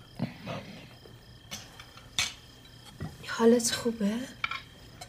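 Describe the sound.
A kebab dish is held out and handled, giving a few light clinks and scrapes of plate and cutlery, with a soft voice briefly murmuring between the clatters.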